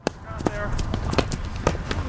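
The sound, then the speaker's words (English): Hurling players running a drill, with quick, irregular thuds and clacks from their footfalls heard under steady talk. “That's the sound of players running a drill, practicing the traditional Irish sport of hurling. Players are armed with just a helmet and a wooden stick called a hurley.”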